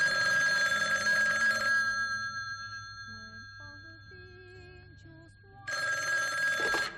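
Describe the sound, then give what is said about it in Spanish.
A telephone bell rings in two loud bursts, one at the start and one near the end, separated by a quieter stretch with faint tones. No one speaks. “Y de repente te suena el teléfono y tú, pues con un gesto distraído, sin sobresalto, atiendes la llamada”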